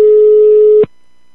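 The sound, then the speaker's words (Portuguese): A telephone tone sounds as a call is placed: a single steady, loud electronic beep lasting under a second that stops abruptly, followed by silence. “é o seguinte, eu vou ligar agora”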